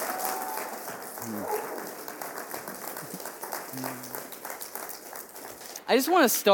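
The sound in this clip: A church audience applauds to welcome a guest pastor to speak, with steady, dense clapping throughout and a voice rising briefly near the end.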